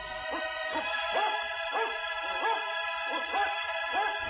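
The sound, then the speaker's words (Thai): Dog barking in a regular run of short, sharp yips, repeated at an even rhythm over a sustained droning musical tone. “พรามเจตบุตรได้ยินเสียงขู่คำรามของสุนัข”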